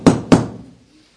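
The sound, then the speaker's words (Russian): Two knocks on a door, dull heavy thuds about a quarter second apart, each followed by a short fading resonance, with nothing else audible. “А за дверьми кто-то стучал.”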